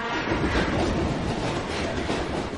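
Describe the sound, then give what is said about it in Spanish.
A train passes by tracks in the dark, a loud, steady rumble and rattle of wheels on rails that holds its level throughout, with no voices. “Espera a que pase un tren.”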